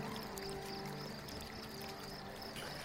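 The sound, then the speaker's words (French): Water pours and dribbles off a lifted hat on a boat on a city canal, a steady, fairly faint splashing hiss that runs evenly through the whole clip without distinct separate drops. “je lève mon chapeau, puis il y a toute l'eau qui dégouline”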